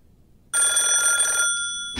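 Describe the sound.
A telephone rings with a single bright, high electronic burst that lasts about a second after a moment of silence, then fades as another sound begins right at the end.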